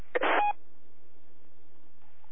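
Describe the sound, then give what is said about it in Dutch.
A brief telephone dialing tone, one short bright burst lasting about a third of a second, followed by a steady low hum on the line with no talk. “daar gaan we met een telefoon”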